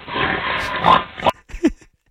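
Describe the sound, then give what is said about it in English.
A pig lets out a harsh, noisy squeal lasting about a second, then gives a few short, rough grunting squeals before falling quiet. “That almost sounded like a wild boar.”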